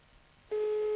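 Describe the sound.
Telephone line tone after dialing a number: a steady single tone switches on abruptly halfway through and holds level over faint line hiss.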